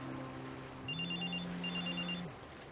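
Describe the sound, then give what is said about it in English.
A telephone rings with a warbling, trilling bell in short repeated bursts over a steady low hum, fairly even in loudness, with no talk. “He answers his phone.”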